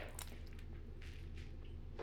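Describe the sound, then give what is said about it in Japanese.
A body being washed with water gives faint, wet squishing and soft dripping. The sounds are quiet and continuous, with a few brief splashy bursts. “はい、じゃあ上半身も洗っていきますね。”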